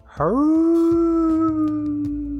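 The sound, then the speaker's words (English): A man imitates a wolf with his voice: one long, loud howl that swoops upward in pitch at the start, then holds a steady, sustained tone until the end, heard alone. “The man howled,”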